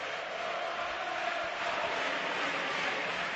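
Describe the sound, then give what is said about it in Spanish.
Basketball arena crowd chanting in support of CAI, a steady dense roar of many voices with no clear beat, holding at an even level throughout. “Está el público diciendo, el gran CAI ya está aquí.”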